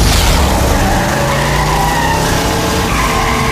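Car tyres skid and squeal during a road chase as another vehicle tries to overtake: a loud, unbroken screech with engine roar beneath, holding steady from start to finish.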